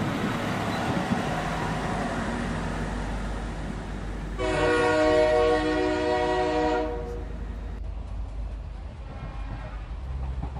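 A departing train sounds its horn in one steady, loud, harmonic blast lasting a couple of seconds, rising above a constant rumble of rail and traffic noise that continues after the horn stops.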